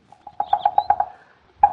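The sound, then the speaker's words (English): Red-headed woodpecker drumming on an oak tree: a fast run of sharp, hollow knocks, a brief pause, then a couple more knocks, with no voices. “Melanerpes erythrocephalus. Yeah, huh? Well, that's the Latin name of the red-headed woodpecker.”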